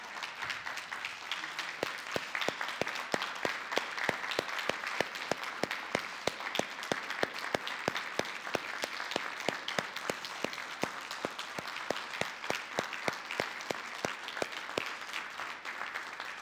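Church audience applauding a Navy serviceman, with sustained, dense clapping that runs for many seconds at an even, fairly faint level.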